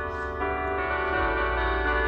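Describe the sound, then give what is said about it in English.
Church bells ringing early in the morning in a neighborhood, recorded on a phone from inside a car: a dense, sustained mix of ringing tones, loud and continuous over a low rumble. “This is the Our Lady of Peace church bells. It's so clear.”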